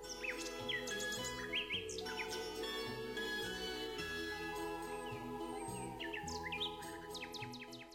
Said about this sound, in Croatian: Slavoj ili mali slavoj, Loscinia megarinhos, je vrsta ptica iz reda vrapčarki, Passeriformes, podreda ptica pjevačica.